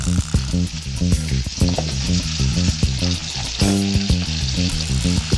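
Onion frying in a pan gives a loud, steady sizzling hiss that runs through the whole stretch, with many irregular pops and small clatters on top.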